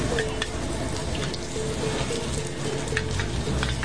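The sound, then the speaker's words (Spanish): Thai food sizzling as it cooks on the street at a summer music festival: a dense, steady hiss of frying with scattered crackles and pops throughout. “Y lo bien que suena que cocinen en la calle.”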